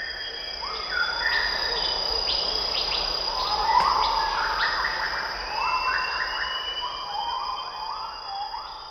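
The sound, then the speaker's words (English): A rainforest soundscape in Sumatra: a steady, high insect drone runs throughout. Over it, overlapping animal calls sweep up and down in siren-like wails, forming a dense, continuous chorus. “He shows us another spectrogram. This one he recorded in the rainforests of Sumatra.”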